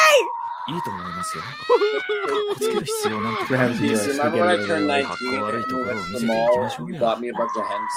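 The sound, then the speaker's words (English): A schoolgirl character screams in the anime series Trigun Stampede: a shrill, wavering, high-pitched voice that shrieks loudly and almost without pause for about eight seconds. “I couldn't hear you over the screaming schoolgirl.”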